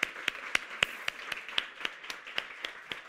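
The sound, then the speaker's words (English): About a dozen faint, evenly spaced hand claps in a steady rhythm as an audience welcomes a speaker to the stage. Each clap is sharp and crisp. “So please put your hands together and welcome John Spence to the stage.”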